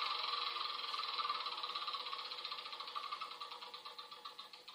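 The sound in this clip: A spinner on The Game of Life board game being spun, giving a rapid run of ticking clicks that gradually slow and spread apart toward the end, with no talk.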